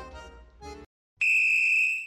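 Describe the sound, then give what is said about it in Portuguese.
Referee's whistle blown for half-time in a football match involving Argentina: one long, shrill, sustained blast that tapers off at the end, after a brief tonal sound and a short silence. “Apitou, hein?”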